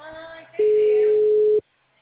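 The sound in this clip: A telephone line tone sounds while a call is placed to a CRM office. A single steady, mid-pitched hum lasts about one second and then cuts to silence.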